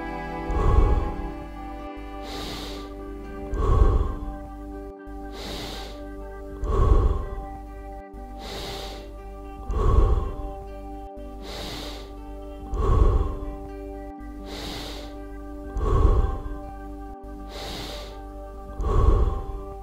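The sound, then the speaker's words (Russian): Breathing in and out in slow, evenly spaced cycles, seven soft swells about three seconds apart over a steady tonal background. “Вдох, выдох. Вдох, выдох. Вдох, выдох. Вдыхаем в живот, в грудь и затем выдыхаем.”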